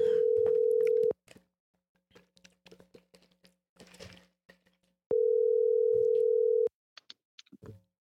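A phone call connecting, with two long, steady ringing tones separated by a quiet gap filled with faint clicks and thumps, followed by a few more clicks at the end.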